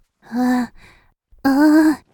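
Heavy, out-of-breath panting from a person who rarely exercises: two long, voiced, breathy exhalations separated by a short pause, loud and alone.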